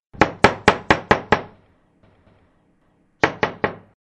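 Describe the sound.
Someone knocks on a door: six sharp, evenly spaced wooden knocks, a pause of nearly two seconds, then three more knocks at the same brisk pace.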